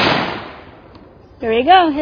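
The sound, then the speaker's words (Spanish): One loud report from a hacked precision rifle firing at a target, with a broad blast that fades out over most of a second. After a short quiet, a person starts speaking. “Va a fallar. Va a disparar en el blanco de la izquierda en vez del de la derecha.”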